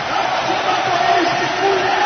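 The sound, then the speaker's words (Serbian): Basketball crowd roaring in the stands after a Czech three-pointer late in the third quarter, a dense, steady wash of cheering and shouting that holds at an even, loud level throughout. “Nova trojka Češke i nova nada za publiku koja je na nogama, koja aplauzima pozdravlja svoje igrače.”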